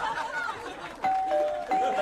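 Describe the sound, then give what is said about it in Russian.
An electronic doorbell rung from downstairs sounds two clear ding-dong chimes, one after the other, following a brief voice. “Вы что, и звонок снизу сделали, что ли?”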